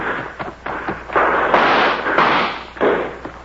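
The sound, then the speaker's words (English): Gunshots ring out during a shootout, with a few muffled blasts whose noisy tails overlap and run into one another. “she's been shot. Use your rifle”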